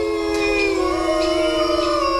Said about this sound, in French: Ce sont des loups. Tout à fait.